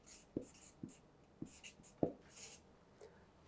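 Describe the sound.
Handwriting with a pen: a few scratchy strokes and sharp little taps as German words are written out by hand, soft and alone with no talking.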